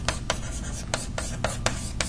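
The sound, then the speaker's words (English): Chalk or marker strokes of a triangle being drawn on a board: several short, scratchy rubbing strokes spaced apart, faint over a low steady background. “let me draw it as a triangle”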